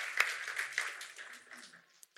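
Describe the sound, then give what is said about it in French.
A church audience gives brief applause for its volunteers. The quiet clapping has a few sharper claps early on and then thins and fades away to near silence. “est-ce qu'on pourrait juste donner une main d'applaudissement à tous nos bénévoles qui s'impliquent dimanche après dimanche avec persévérance?”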